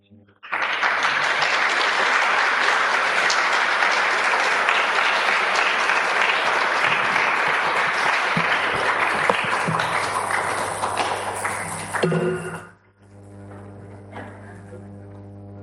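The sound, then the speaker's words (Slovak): A church audience applauds after a service with loud, sustained, even clapping for about twelve seconds before it stops abruptly, leaving a quieter sustained tone and a low steady hum. “Tak děkujeme aj za ten potlesk”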